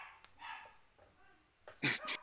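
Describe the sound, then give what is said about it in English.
A dog gives two sharp, loud barks near the end, after a few softer whining yelps. “There's a dog.”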